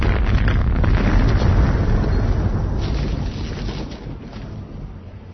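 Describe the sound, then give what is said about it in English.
A thermonuclear blast destroys the spaceship Fool's Gold: a loud, sustained roaring rumble with a dense low boom that slowly fades over about five seconds, with no voices. “the thermonuclear blast not only obliterated the Fool's Gold, but it also sufficiently altered the trajectory of 2046 Bar.”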